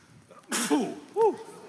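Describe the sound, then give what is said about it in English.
A single sneeze: a sharp, faint burst of breath, followed by short voiced vocal sounds. “I usually sneeze like 3 times. Yeah, bless you.”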